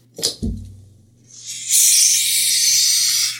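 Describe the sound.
A beer can cracks open with a sharp snap and a short dull knock, then a loud, steady, bright hiss that swells up and holds for almost two seconds.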